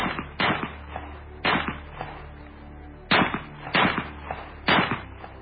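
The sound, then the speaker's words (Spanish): Pistol shots fired repeatedly, a magazine emptied into a body in a palace garden: several sharp, loud cracks at uneven intervals, with fainter knocks between them. “Yusupov, preso de la ira, preso del pánico acaso, cogió la pistola de nuevo y descargó todo el contenido sobre el cuerpo de Rasputín.”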